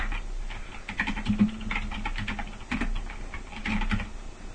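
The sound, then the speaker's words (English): Rapid typing on a computer keyboard while entering a chat message: an uneven, continuous patter of many quick key clicks at a fairly even level throughout, with no talking. “I'm typing it into IRC right now.”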